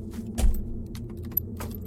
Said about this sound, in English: started the van and slowly turned the wheel and applied gas.